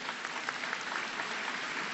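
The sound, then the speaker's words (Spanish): Audience applause at a forum honoring an absent writer, an even, continuous patter of many hands clapping at a soft, steady level. “Le mandamos un aplauso también a Enrique González Rojo.”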